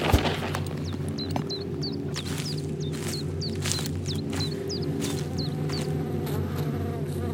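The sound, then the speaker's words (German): Many bees buzzing around their nest in a steady, low droning hum, with repeated short high chirps sounding above it. “Schau mal, all die Bienen. Komm, wir suchen das Nest.”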